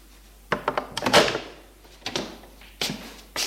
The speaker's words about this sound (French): Et va frapper à la porte de la concierge qui lui ouvre.